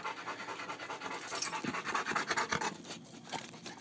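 A wet dog panting after coming home, with quick, rhythmic, breathy huffs at a fairly low level and some light scratching sounds mixed in.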